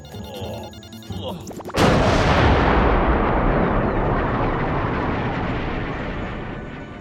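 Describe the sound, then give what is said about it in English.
A rocket is fired into the jungle: a sudden loud blast bursts out after some quieter clattering tones, then becomes a long roaring rumble that slowly fades. “Why did you fire the rocket aimlessly into the jungle?”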